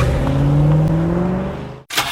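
A car engine turning over: a steady humming engine tone that rises slightly in pitch, then cuts off abruptly and is followed by a short burst of noise.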